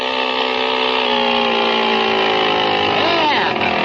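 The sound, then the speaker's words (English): A motor-powered bicycle engine runs with a steady, buzzing drone that stays even for most of the stretch and wavers slightly near the end. “How do you like the motor, huh? Boy, it runs keen. Oh, pushes the bike right along, does it?”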